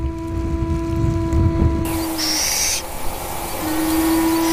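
A little owl calls from its nest in a rock crevice on a high plateau, giving a long, steady, mid-pitched hoot, a pause, then another drawn-out hoot, over a constant hiss.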